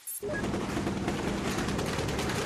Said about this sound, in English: That's the sound of fierce gun battles in one neighborhood.